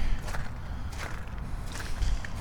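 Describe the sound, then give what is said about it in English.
Footsteps crunching over a layer of melted-down ice and sleet, a few gritty crunches in an even walking rhythm over a steady rough outdoor hiss. “crunchity crunchity crunch, walking around, looking down Frog Harbor.”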